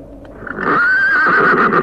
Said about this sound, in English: God, I walked straight into the pony. I didn't see it.